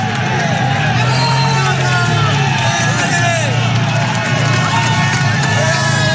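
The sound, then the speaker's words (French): A dense crowd of tens of thousands cheering cyclists on the hairpin climb of Alpe d'Huez, a steady, loud roar of shouts, whistles and clapping around the three leading riders, with voices mixed throughout. “ça te file le frisson d'entendre ça, la foule qui encourage les coureurs dans ce stade incroyable de 21 virages de l'Alpe d'Huez.”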